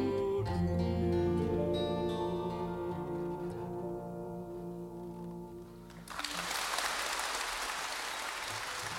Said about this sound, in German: Ein begeistertes Publikum in London am 10. Juli 1968.